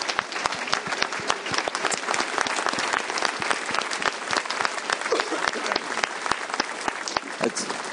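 Audience applauding in thanks at a stage event, many hands clapping in a brisk, crackling stream with sharp individual claps standing out, loud and unbroken throughout.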